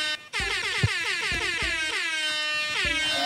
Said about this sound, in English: I just got hit with the air horn plant prank.